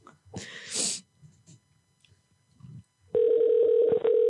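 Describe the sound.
A telephone ringing tone heard by a caller waiting for an answer: after a few soft rustles and a brief breathy noise, a steady, loud, low buzzing tone starts and holds for the final second.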